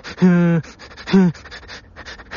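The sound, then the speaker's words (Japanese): A voice imitating the hiccup-like sobbing breaths that follow a long cry: two short, voiced, catching gasps, then softer breathy sounds. “ひとしきり泣いた時に、呼吸が変になるというか、なんか、しゃっくりみたいなの出ませんでした？”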